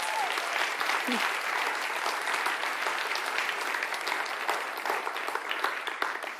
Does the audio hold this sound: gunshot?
no